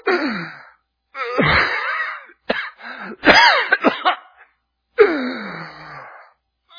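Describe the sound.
A voice imitates someone struggling to breathe through a handkerchief held over the mouth: several strained, rasping gasps and wheezy moaning breaths come in uneven bursts separated by short silences.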